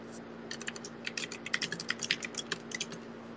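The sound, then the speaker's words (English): Typing on a computer keyboard: many quick, fairly faint keystrokes in an uneven, rapid rhythm over a steady low hum. “Okay, maybe I can type it in.”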